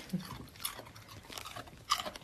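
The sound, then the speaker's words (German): Soft crunching of a dog chewing on a carrot: a few quiet, irregular crunches and bites spread across the moment, with no voices. “Das kleine Raspeln im Hintergrund ist ihre Hündin Anouk, über die es heute auch geht, die sich gerade eine Möhre schmecken lässt.”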